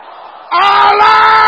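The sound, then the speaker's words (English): A crowd shouts loudly in answer to a call at a religious rally: an abrupt, strong, sustained burst of raised voices that holds at full strength to the end. “Can I hear you shouting loud and clear?”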